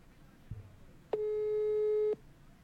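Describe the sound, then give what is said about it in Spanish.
A telephone busy tone sounds as a call goes unanswered: a single loud, steady tone lasting about one second, preceded by a faint click. “Estoy llamando en vivo. Pero atendeme, Josefina. No me atiende.”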